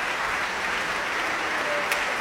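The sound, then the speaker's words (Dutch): A concert audience in the large hall of Tivoli Vredenburg at an early-music festival applauding the basso continuo section, a sustained, even wash of clapping from many hands with no talk. “Dit is even applaus voor de basse continua sectie.”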